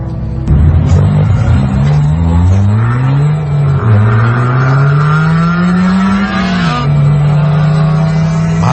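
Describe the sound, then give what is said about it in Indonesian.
A car drives up with its engine droning steadily and loudly. The low engine tone bends up and down in pitch as the vehicle moves, running continuously. “Itu Boy membawa mobil miliknya menjemput Rusdi ke kedai ayam bakar langganan mereka.”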